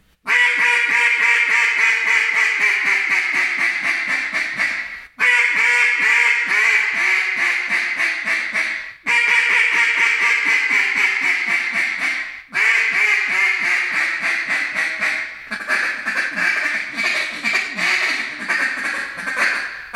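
A double reed duck call, an icebreaker model, blown in five long runs of rapid, raspy quacks separated by brief pauses. The calls are loud and heard alone.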